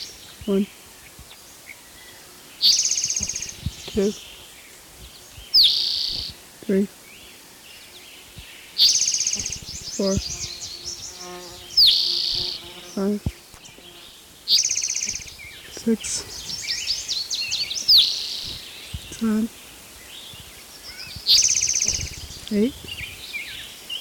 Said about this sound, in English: Here's spotted toad number 14.